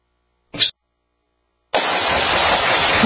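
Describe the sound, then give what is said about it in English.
A single sharp gunshot cracks out, followed after a short silence by a steady, loud burst of hissing noise that runs to the end. “Nice shooting.”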